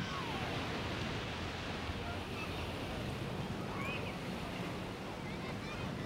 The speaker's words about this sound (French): la mer est trop haute. Est-ce que c'est bien comme plage pour les enfants ?